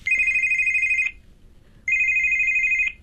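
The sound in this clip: Mobile phone ringtone sounding in two bursts, each a loud, steady, high electronic warble lasting about a second, separated by a short pause.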